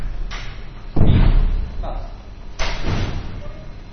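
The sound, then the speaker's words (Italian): A door is closed, giving two heavy, dull thuds about a second and a half apart, each followed by a brief rumbling decay. “Chiudi la porta. Bene.”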